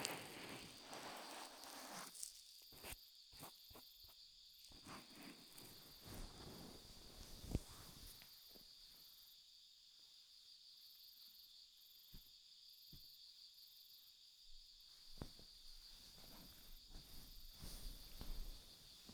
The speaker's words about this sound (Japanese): 何気なく聞いておりましたが、コオロギも